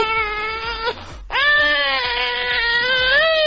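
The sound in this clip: Recorded crying of a baby: two long, high, wavering wails separated by a short breathy gasp. The second cry is held longer at a loud, steady level.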